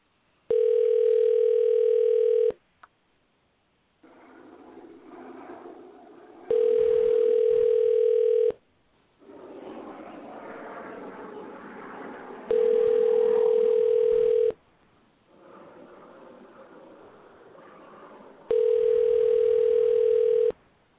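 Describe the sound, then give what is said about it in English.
Telephone ringback tones while placing an outgoing call: four long, steady beeps of about two seconds each, spaced roughly six seconds apart, with hissy line noise filling the gaps between them. “And we're dialing Sensei Beth Gould, World Taekwondo Federation.”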